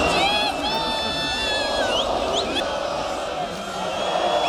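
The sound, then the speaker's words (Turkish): Galatasaray fans fill Istiklal Avenue in Taksim to celebrate the championship: a dense, continuous crowd roar with scattered shouts, cheers and high calls rising above it throughout. “İstiklal Caddesi, Taksim şu an sarı kırmızı ve burada taraftarlar eğlenmeye, sloganlar atmaya ve şampiyonluğu kutlamaya devam ediyorlar.”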